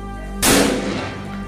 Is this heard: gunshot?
yes